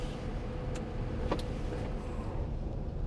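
A car is put into gear during a driving lesson: a steady low engine rumble runs throughout, broken by a couple of brief mechanical clicks near the start.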